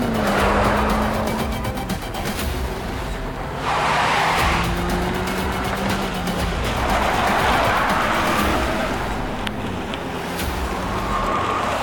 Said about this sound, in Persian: یکم سریع تر برو. گاز بده مگه داریم میریم پیکنیک. گفتم گاز بده.